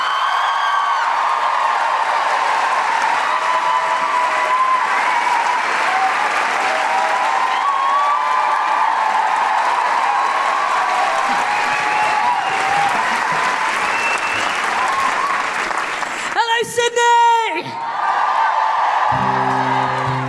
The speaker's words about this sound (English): put your hands together and make incredible, welcoming Sydney woohooing Guilty Feminist noises for the incredible Grace Petrie!